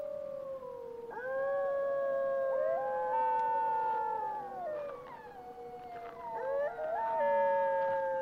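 Wolves howl at night in an icy, moonlit landscape: several long, overlapping howls that hold steady tones and then slide in pitch, loud and continuous with no talk.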